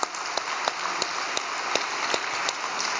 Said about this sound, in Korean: 저 뒤에 계시지만 박수 한번 올려드립시다.